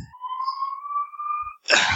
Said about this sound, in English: There is an ambulance. Someone got set on fire by a firework.